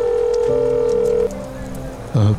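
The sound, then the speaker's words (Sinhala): A telephone line tone plays after a number is dialed on a phone: a steady, unbroken hum that holds for over a second, then continues more quietly, ending in a brief low thump. “Message එක කියපු වසල් ෂනුලගේ number එක dial කළා.”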